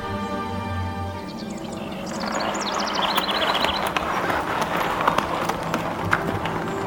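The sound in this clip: Horses trotting as they pull a carriage, hooves clip-clopping in many quick, uneven strikes over a continuous bed of background noise.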